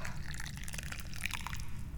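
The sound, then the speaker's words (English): Jiguan Yin tea being poured, a steady faint trickle of liquid with small bright splashy glints throughout, running over a constant low hum. “allow me to pour you some lovely, lovely tea.”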